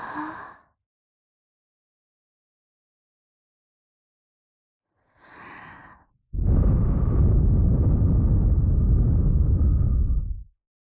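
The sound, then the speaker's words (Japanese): Breathing presented as a mother's, offered to a baby in place of a lullaby: two short, soft breaths, then one long, loud, rushing exhale that holds steady before cutting off. “森歌代わりにママの呼吸音を聞いてくだちゃい。”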